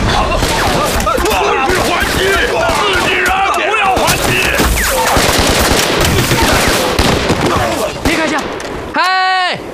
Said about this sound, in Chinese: 他们是日本人，开枪！